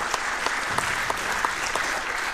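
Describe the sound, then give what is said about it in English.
Audience applause thanking the streaming team at a conference of talks: dense, steady clapping from many hands, loud and unbroken from start to end, with no voices. “Big applause.”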